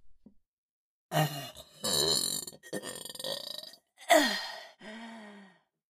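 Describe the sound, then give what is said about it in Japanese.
A series of loud, drawn-out burps, about five in a row, each a rough voiced belch separated by short pauses, with the last trailing off lower and quieter. “お下品なゲップ、こいちゃいました。”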